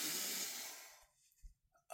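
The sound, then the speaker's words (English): One deep, soft breath, an airy hiss lasting about a second that fades into near silence, followed by a faint rustle. “Let's just breathe into this new year. Deep breath in.”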